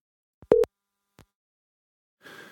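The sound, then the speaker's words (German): After a mobile call drops on an overloaded network at the Polish-Ukrainian border, the telephone line gives a single short electronic beep with faint clicks around it, followed by a brief burst of hiss. “Jetzt ist die Verbindung unterbrochen. Ich werde nochmal anrufen.”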